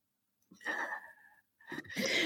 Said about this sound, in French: Petit éternuement, donc je vous ai coupé le son.